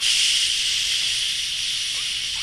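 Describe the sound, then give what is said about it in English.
A voice imitates the hiss of a beer can being opened: one long, loud, steady hiss that holds for the whole stretch and fades only slightly toward the end. “all it was a commercial of just some guy opening a can, and all you hear was”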